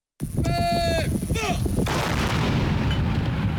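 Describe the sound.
Howitzers fire live rounds in a night live-fire exercise, a loud, continuous roar of blasts and rumble, opened by brief high whistling tones in the first moments.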